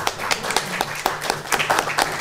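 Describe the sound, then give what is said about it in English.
A panel discussion's audience applauds the panelists with fairly sparse, distinct hand claps in an uneven rhythm, several per second for about two seconds, with no voices. “I wanted to have a round of applause for the fabulous panelists.”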